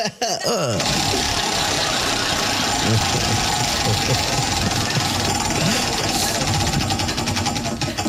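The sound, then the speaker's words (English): A prize wheel spun during a game segment gives a loud, dense, rapid clicking that runs almost without a break from start to finish. “get up here and spin that wheel”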